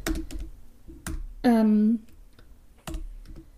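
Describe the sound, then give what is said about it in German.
Computer keyboard typing as a note is jotted down: a few scattered key clicks at the start, middle and end, with a brief hummed voice tone between them. “Warte mal, das schreibe ich mir direkt mal auf. Trailer.”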